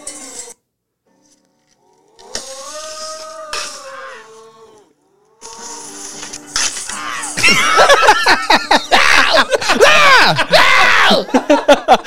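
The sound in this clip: A man screams in fear while pinned in a corner: drawn-out wavering vocal cries, then a louder, denser stretch of harsh, noisy bursts.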